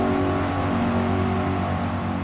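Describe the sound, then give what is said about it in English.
A race car's engine drones steadily as it leaves the pit box onto a soaking wet road track, a sustained harmonic hum at constant loudness with a faint whir, no voices. “Your car leaves your pit box to drive back onto the soaking road track.”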